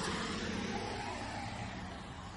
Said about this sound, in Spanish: En la calle, él camina hacia una prisión. Un autobús se aleja.